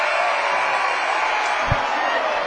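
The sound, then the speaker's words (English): Basketball crowd cheering at DeWitt Gymnasium in Sioux Center after a college win, a loud, steady roar of voices with one dull thump partway through. “And the crowd loves it in Sioux Center.”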